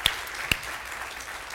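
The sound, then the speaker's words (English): Audience applause welcoming the North Attleboro and Taunton campuses: a faint, steady wash of many hands clapping, with a couple of sharper claps standing out early on. “Everybody in North Attleboro, let's give them a hand and welcome them on in.”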